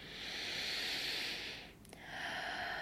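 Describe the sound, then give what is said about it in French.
A deep breath let out through the mouth during a breathing exercise: a long, soft, airy exhale, a brief pause, then more quiet breathing. “tu reprends une grande inspiration et tu expires normalement par la bouche”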